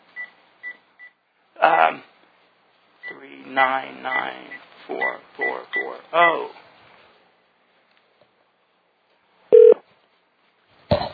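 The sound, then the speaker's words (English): Telephone keypad beeps as a number is dialled to call a guest back: three short, bright tones at the start, then a stretch of talk, and one longer tone near the end. “Okay, calling Rod again.”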